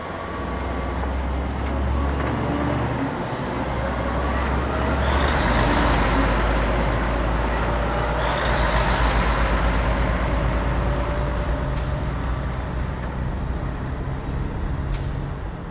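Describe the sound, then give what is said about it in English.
Deep, steady engine rumble of several vehicles driving off along a dark, deserted road, loud and continuous throughout, with a few sharp hissing bursts near the end. “they all climbed into their vehicles and drove off, leaving us alone on the dark, deserted road.”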